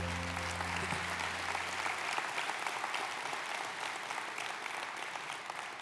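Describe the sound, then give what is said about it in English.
A church audience applauds to welcome a speaker to the stage, with full, sustained clapping from a large crowd that stays loud and even from start to finish. “Put your hands together and welcome Ted Cunningham this morning.”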